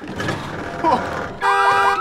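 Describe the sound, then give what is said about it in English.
A parked red car's alarm goes off after the car is lifted. Rustling, clattering noise comes first, then loud warbling siren tones start abruptly, sweeping up and down in a rapid repeating pattern. “He lifts the car up, then bolts as the alarm goes off.”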